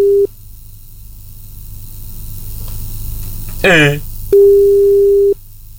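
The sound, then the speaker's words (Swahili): A telephone busy tone sounds after a dropped call: a low beep is cut off at the start, a brief chirping sound passes, then one longer beep of about a second plays over constant line hum and hiss. “Eh, sijui simu hii ni kama imekatika pole aki.”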